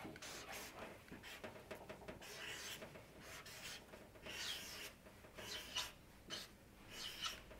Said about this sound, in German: Ich sag's euch mal, ich schreib's mal ran, ja?